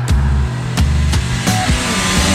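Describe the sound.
A car speeds along a toll road. A loud, steady engine hum with droning harmonic tones runs throughout, broken by a few short whooshing bursts as the pitch shifts.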